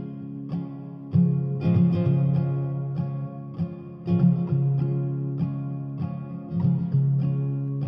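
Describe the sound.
Loud, distorted rock music with heavy sustained chords and punchy accents recurring at irregular intervals. It plays steadily and continuously throughout.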